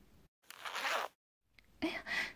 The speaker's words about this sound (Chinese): 让我帮你把你的拉链拉开。